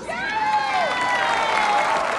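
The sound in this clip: An audience cheers and applauds in a steady wash of clapping and crowd noise, fairly loud and continuous across the short span.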